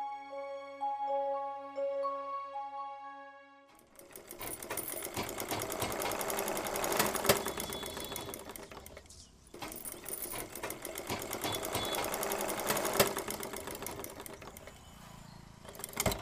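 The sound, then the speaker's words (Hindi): A sewing machine that then breaks down runs with a fast, continuous mechanical rattle, dipping briefly midway. A short passage of soft melodic tones plays before it. “हे भगवान, इस सिलाई machine को भी अभी खराब होना था।”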